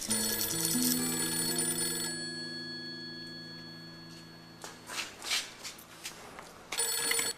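A telephone rings with a sustained tonal ring at the start that fades away, followed by quieter stretches.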